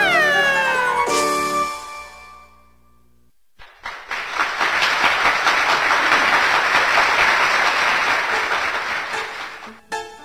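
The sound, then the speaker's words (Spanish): A cat meowing in a short run of bright, falling cries, then a brief lull, then a long, dense wash of noise like applause. “los gatitos chiquitos hacen miau, miau,”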